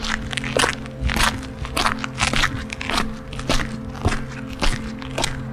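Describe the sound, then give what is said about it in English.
Footsteps crunching over gravel in outdoor gardens, a steady walking rhythm of many crisp, gritty steps at a moderate pace, each crunch standing out clearly. “You walk over gravel.”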